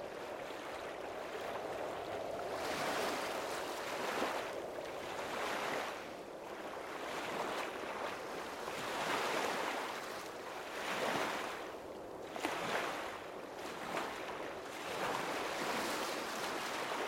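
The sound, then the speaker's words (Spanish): Ocean waves and surf roll in steady swells that rise and fall every few seconds, a soft continuous washing hiss with no voices. “Sientes el balanceo del ir y venir del oleaje. Del ir y venir de la marea.”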